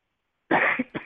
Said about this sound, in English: Sorry, cough.